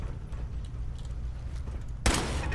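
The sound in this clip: Turret gunfire in a video game bursts in suddenly near the end as a loud, dense volley over a steady low rumble of game background sound.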